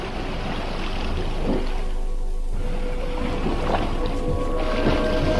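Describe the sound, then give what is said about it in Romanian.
A birch-bark canoe moving on open water: a steady, loud wash of lapping and sloshing water with wind noise and a few faint splashes. “Oprește-te aici, Shumaun, luntre de mesteacăn. Apă de jur împrejur cât vezi cu ochii”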